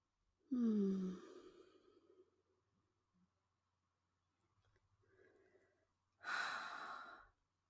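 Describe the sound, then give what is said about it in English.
A deep breath for calming down before counting to ten: two loud breathy bursts separated by a quiet pause, the first carrying a short low voiced sigh-like tone, the second a strong airy rush. “Let's take a deep breath.”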